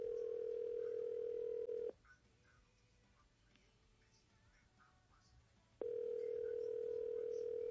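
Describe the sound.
Telephone tone while calling a call center: a steady, mid-pitched tone of about two seconds, a quiet gap of several seconds, then the same tone again.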